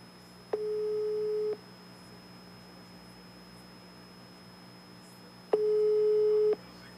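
A telephone line tone while a call is placed: two steady, mid-pitched beeps, each about a second long, separated by a few seconds of quiet over faint hiss.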